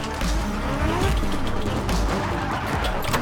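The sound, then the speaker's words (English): Drift cars burn rubber on a custom track at a drifting competition, with a continuous loud roar of engines and squealing tires that does not let up. “12 of the world's top drifters burning rubber on a custom track where power and precision are paramount.”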